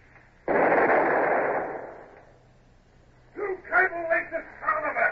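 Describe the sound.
A long 9 cannon fires from a ship's forecastle during a naval battle: a single sudden, loud blast that rolls on and fades over about a second and a half, then speech follows.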